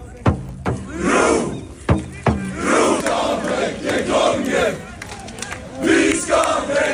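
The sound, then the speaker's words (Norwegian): Crowds celebrating in the Oslo streets after a football win over Senegal, marching up Karl Johan toward the palace: loud chanting and cheering that swells in repeated waves, with a few sharp claps or bangs early on. “Dette er lyden av Oslo i dag, tidlig, eller i natt blir det jo da. Rett etter vi vant kampen mot Senegal”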